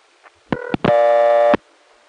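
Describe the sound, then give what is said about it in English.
A payphone coin-collect low tone on a crossbar telephone line: a faint click, then a short buzzing tone burst, a brief gap, and a longer steady buzzing tone that cuts off abruptly. “The low tone sound, which is associated with coin collect, is not there for any technical reason to collect the coin.”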